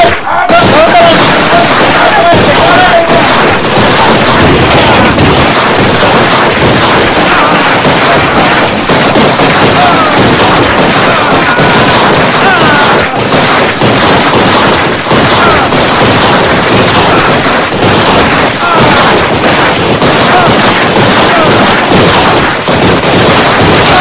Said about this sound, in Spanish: Traje mi pistola mágica.